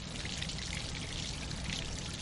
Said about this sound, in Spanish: El líquido del depósito sigue cayendo.